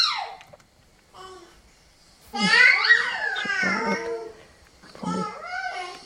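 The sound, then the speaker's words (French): A five-month-old baby alone vocalizes in a few short bursts of coos and squeals, its pitch sliding up and down as it tests its voice, with quiet pauses between. “Donc là, on a un bébé qui a 5 mois et qui est dans cette phase du développement vocal où il va triturer un peu le son, tester sa voix.”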